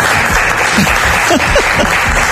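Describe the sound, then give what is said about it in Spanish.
Applause from a live radio studio audience in a small space, loud, dense and steady clapping that fills the whole stretch. “por tanto, estos aplausos”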